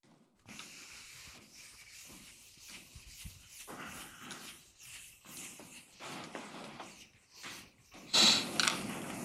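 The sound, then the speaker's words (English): A chalkboard being erased during a physics lecture: soft, repeated rubbing swishes in an irregular rhythm, faint overall, with a louder scrape near the end. “now I think I can erase this.”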